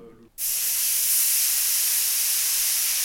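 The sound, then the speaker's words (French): Loud steam hiss bursts abruptly from a hot clothes iron pressed onto a wet cloth to cook a seven-hour leg of lamb, then holds as an even, continuous spray to the end. “Voilà la cuisson du gigot de 7 heures avec un fer à repasser, branché chaud et un chiffon mouillé.”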